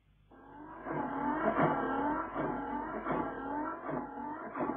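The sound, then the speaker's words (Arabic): A freshly repaired car engine revs loudly and steadily, its deep roar swelling and easing in regular surges, with no voices over it. “الموتور بقى زي الساعه”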